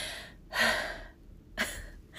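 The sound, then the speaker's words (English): A person takes a big, deep breath: a long, airy inhale is followed by a shorter, softer breath. Both are breathy and moderately loud, with no words spoken. “So the second thing is breathe. If you're listening to this right now, just take a big breath.”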